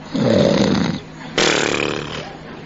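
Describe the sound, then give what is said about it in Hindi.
A man's voice imitates an old man's breathing: a long, rough inhale through the nose, a short pause, then a loud breathy exhale blown out through the mouth. “बूढ़ा आदमी नाक से सांस लेता है, मुंह से फिर फूंकता है, बुढ़ापे की निशानी समझो, अथवा थकान होती तभी भी ऐसा होता है।”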